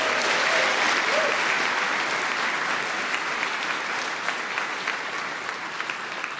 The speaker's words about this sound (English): that was actually your round of applause and congratulations from this audience, I guess, wherever you are.